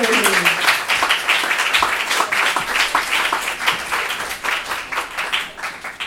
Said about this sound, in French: Sous un tonnerre d'applaudissements.